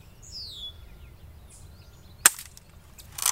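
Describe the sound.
A single sharp crack of a BB gun fired at a bottle cuts in abruptly, brief and loud, with faint bird chirps earlier and a short rustle near the end.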